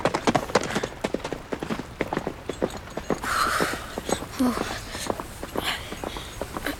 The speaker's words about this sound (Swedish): Han bara red därifrån och tog de andra soldaterna med sig.